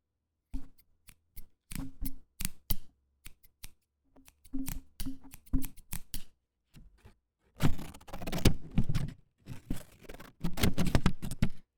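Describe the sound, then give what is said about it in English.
Scissors snip repeatedly in crisp, quiet cuts, first in sparse irregular clusters, then in denser, busier bursts toward the end, with no talking. “I have scissors.”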